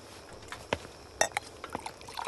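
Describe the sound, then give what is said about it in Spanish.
Water poured into a glass at a table, heard as a few sparse, splashy liquid glugs and clinks, faint overall, with no voices. “se dirige a la mesa para servirse un vaso de agua”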